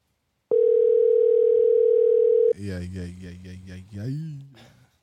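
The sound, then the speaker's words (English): An outgoing phone call rings over Bluetooth: a single steady ringback tone lasts about two seconds, then a voice starts talking. “All right, so I'm calling him now. All right, I'll turn the Bluetooth up. He's going to hear us through the mics now.”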